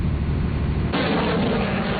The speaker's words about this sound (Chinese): 随着射击指令的下达，远程多管火箭炮对海上靶标实施精确打击。